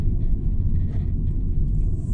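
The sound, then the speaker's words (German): A car driving straight across a roundabout gives a steady, low engine and road rumble that continues evenly throughout, with no talking. “Ich fahre geradeaus über den Kreisverkehr drüber.”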